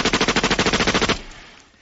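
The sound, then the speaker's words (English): A rapid burst of machine-gun fire used as a sound effect on a talk radio show. Many quick, evenly spaced loud shots rattle for about a second, then fade into a decaying rumble. “Can you take me out in a hail of gunfire?”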